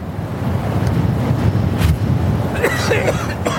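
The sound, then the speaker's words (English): A soft, steady breeze rushes without a break, a gentle wind conjured by a spell over sand, with a faint airy whistle rising near the end. “This is what a soft breeze wind spell should feel like.”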